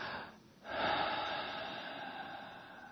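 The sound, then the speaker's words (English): A single deep breath, heard alone as a loud airy rush that swells suddenly after a brief quiet moment and then slowly tapers off. “deep breath.”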